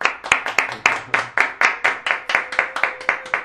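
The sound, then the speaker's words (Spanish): Loud audience clapping on a stage show, a crisp, evenly spaced rhythm of many sharp claps struck in unison, each one decaying quickly before the next, steady in tempo throughout. “fuerte, fuertísimo, el aplauso.”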